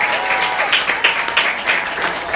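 An audience applauds a 550-metre world record with dense, steady clapping that holds at an even loudness throughout, with small swells but no pause.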